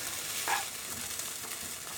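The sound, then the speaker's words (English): Onions fry in a pan after cooking down, browned and starting to crisp and catch on the bottom. The sizzle is soft and steady and continues alone throughout. “So now the onions have cooked down quite a lot. You can see they've reduced loads and loads. They've gone brown. They're starting to crisp and catch a little bit on the bottom of the pan.”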